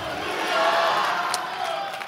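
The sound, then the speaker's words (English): A crowd at an opening-night church meeting cheering and shouting in praise, a loud, steady wash of raised voices that swells slightly and holds for the whole clip. “Give Jesus a great hand clap on this opening night. Somebody shout hallelujah.”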